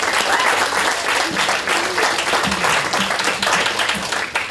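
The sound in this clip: Audience applause welcoming a guest home at a chapel gathering: loud, dense clapping sustained for the whole four and a half seconds, with scattered voices faintly mixed in.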